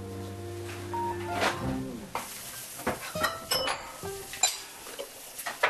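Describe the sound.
Tteokgalbi is stir-fried in a pan, with many sharp metallic clinks and scrapes of a utensil against the cookware coming in irregular bursts.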